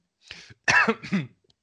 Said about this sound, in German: jetzt musste ich erstmal husten.